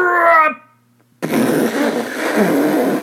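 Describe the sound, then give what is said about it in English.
A voice imitates a loud fart: a long, rough, noisy blast that holds steady for almost two seconds. It comes after a brief voiced sound and a short silence. “I let out the loudest, my biggest fucking fart that I've ever done in my life.”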